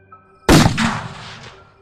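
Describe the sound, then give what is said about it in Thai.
A single shot from a Rama VI rifle fired in a forest: one sudden, loud blast followed by a long rumbling tail that fades over about a second. “เสียงปืนพระราม6ของคุณจองพบดังระเบิดลั่นพื้นป่าโดยที่คุณจองพบปล่อยกระสุนออกจากลำกล้องส่งตรงไปยังร่างของผีกระหังตนนั้น”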